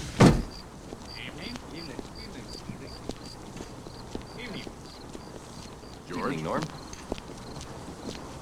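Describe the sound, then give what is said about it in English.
A window is shut with a single sharp knock at the very start. Faint, quiet ticks follow, then a brief soft rustle later on. “Chip looks confused as she pulls her head in and shuts the window.”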